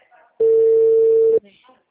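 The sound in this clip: A single steady telephone ringback tone sounds during an outgoing call. It holds one even pitch for about a second and stands alone, with no voices.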